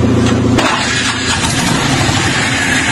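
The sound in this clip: A car engine is started with a key: a low droning hum for about half a second, then an abrupt shift to a rougher, broader running-engine rumble that continues steadily.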